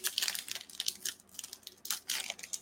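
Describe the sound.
A trading card pack wrapper is torn open with quiet crinkling and tearing rustles. They come in several uneven bursts of crackly foil-like noise.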